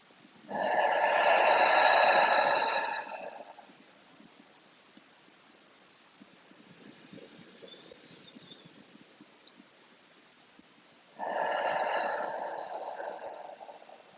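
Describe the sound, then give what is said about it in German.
Deep belly breathing during a guided relaxation and stretching session: two loud, drawn-out breathy rushes with a long, soft, faint hiss between them. “Nimm noch zwei, drei tiefe Atemzüge für dich. Ganz tief, lass den Bauch nach außen wölben beim Einatmen. Und den Bauchnabel Richtung Wirbelsäule ziehen beim Ausatmen.”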